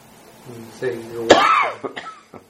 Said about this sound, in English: Sorry for the cough. Biting off the end of this cold.